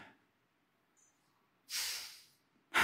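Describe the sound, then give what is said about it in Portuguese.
Breathing in and out during a sermon: after near silence, one loud, airy breath lasts under a second. A second sharp breath follows soon after and is cut off at the end. “Você recebe e você envia. Inspira e expira.”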